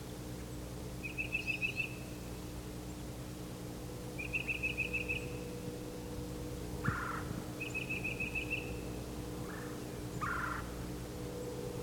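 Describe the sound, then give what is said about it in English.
A northern parula warbler sings three short, buzzy trilled phrases, spaced a few seconds apart. The song is faint over a steady low hum, with a few softer calls between phrases. “there's a parula warbler.”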